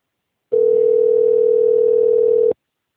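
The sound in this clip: A telephone ringback tone sounds while an outgoing call waits to be answered. It is one steady, mid-pitched tone lasting about two seconds, loud and alone with no talk.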